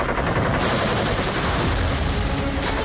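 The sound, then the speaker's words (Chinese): Machine-gun fire bursts from a pillbox bunker during a night river-crossing battle, a continuous loud crackling barrage of dense rapid shots with no pauses. “板子矶上暗堡里的机枪疯狂扫射，子弹像暴雨一样倾泻而下”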